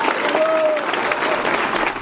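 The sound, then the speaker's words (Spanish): Applause for a political speech: a dense, even wash of clapping held at a steady level for the whole stretch, with no clear individual claps standing out. “Entre otras palabras y tímidos, fríos aplausos que también recibió.”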